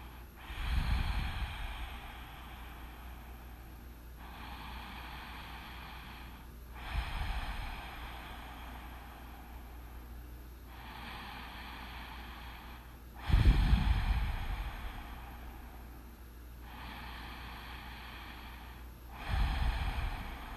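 Slow, deep breaths during a one-minute centering breathing practice, drawn in through the nose and let out through the mouth, forming soft airy whooshes that repeat in a steady, unhurried rhythm.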